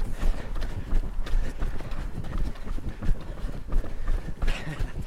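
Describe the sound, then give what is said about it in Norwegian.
Two runners pounding along together, their footfalls forming a rapid, steady, overlapping rhythm of loud thuds over a rough rush of wind noise. “Jeg tenker jo ikke sånn. Jeg tenker egentlig jeg springer sammen med deg.”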